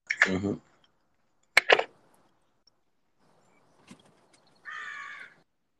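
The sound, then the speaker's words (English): Crows caw outside by a balcony deck in the morning: a few loud, harsh, raspy calls in short bursts with gaps between, and a fainter sound in the middle. “Oh wow, crows!”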